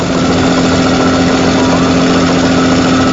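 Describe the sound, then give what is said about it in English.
A boat engine running hard near its maximum RPM, with dark smoke drifting from the engine compartment, gives a loud, steady roar with a constant low hum and no break. “The needle on the RPM gauge nears the maximum limit. Below, dark smoke drifts around the opening to the engine compartment.”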